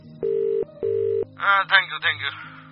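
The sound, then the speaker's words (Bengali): Telephone ringback tone after a call is dialled: two steady double-pitched ring bursts with a short gap between them, then a voice begins speaking over a low background hum. “Titir call বাটনটা টিপে ফোনটা কানে ধরল। Ring হচ্ছে।”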